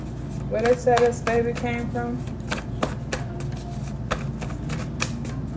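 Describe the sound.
A deck of cards being shuffled, a different kind of deck, with a quick burst of riffling clicks followed by scattered lighter taps and rustles, a voice faintly present during the opening burst.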